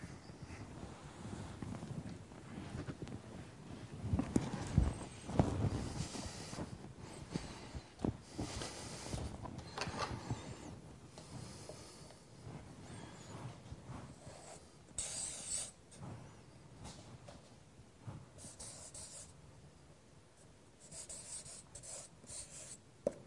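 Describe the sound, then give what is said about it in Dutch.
Writing on a board produces soft, continuous scratching and rubbing strokes, faint and irregular, with brief pauses between bursts of writing. “Smriti, ik schrijf het op het bord.”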